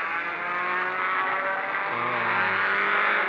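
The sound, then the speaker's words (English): A car accelerates hard through a dark tunnel with its headlights off, the engine holding a loud, dense, continuous roar from start to finish. “Back, back, back into a dark tunnel. Let's switch the headlights off and ram the pedal to the floor.”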